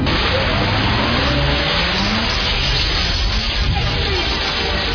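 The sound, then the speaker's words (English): A planet-spinning sound effect in an audio drama, a loud, continuous rumbling whoosh with an engine-like roar that holds steady throughout and has no voices over it. “But I didn't say anything about spinning it. No! Spin the planet!”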